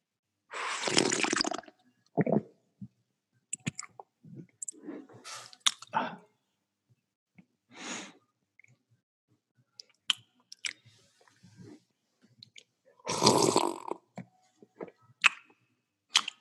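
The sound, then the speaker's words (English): Coffee being slurped and swallowed in several short, wet, separate bursts, a few louder slurps split by quiet gaps with small clicks and gulps between them; no talking. “I'm going to fill the empty space with – the sound of me drinking coffee.”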